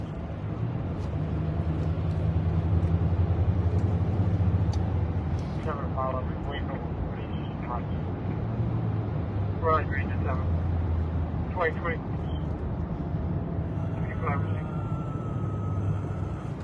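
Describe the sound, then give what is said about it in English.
Street traffic passing by on a city street on a Thursday night, heard as a steady low rumble that continues the whole time, with people talking over it. “I don't know why there's so much traffic.”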